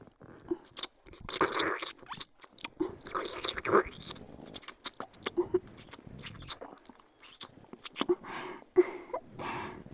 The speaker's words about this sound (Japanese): 甘いディープキスだよ。体を熱くして目覚めてもらいますけど。